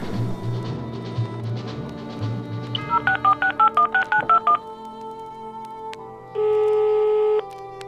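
Touch-tone telephone keypad beeps as a number is dialed: a quick, even run of short tones over a steady background hum, followed by one longer, steady line tone.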